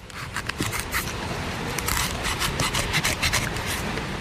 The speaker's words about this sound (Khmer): អ្នកស្រីកាន់កូនកំបិតហើយដៃខាងស្ដាំក៏កាន់កូនកំបិតដែរអ្នកស្រីប្រើជើងទាំងពីរដើម្បីទប់ដូងឲ្យនៅនឹងអ្នកស្រីចាប់ផ្ដើមចោះប្រហោងមួយនៅលើសម្បកដូងស្ដោដែលជាដូងគ្មានទឹក